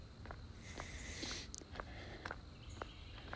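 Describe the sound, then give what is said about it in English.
Footsteps of a person walking home after a run: a steady series of faint, soft, evenly spaced steps over a constant wash of background noise, with no talking. “So, run is over. I'm doing probably about 1/2 mile walk back to my house.”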